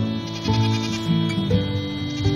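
Goats bleat in a yard with hay bales, giving a few wavering, nasal calls one after another, loud and with no voices over them.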